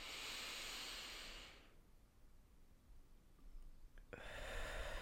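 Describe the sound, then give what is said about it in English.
Deep breathing: a long, loud, airy whoosh of breath fills the opening second and a half, then quiet, then another strong breath begins near the end. “Let's maybe take this opportunity to have a big breath, because I feel like I've not really had a deep breath today.”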